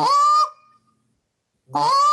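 A goose call is blown to make a moan that imitates a passing goose. Two drawn-out honking moans are separated by silence, and the first one trails off softly.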